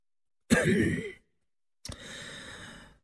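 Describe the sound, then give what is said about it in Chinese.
A light cough from a pale, thin, ill-looking man: two short throat sounds separated by a brief silence, the first sharper and louder, the second softer and breathier. “轻咳了一声”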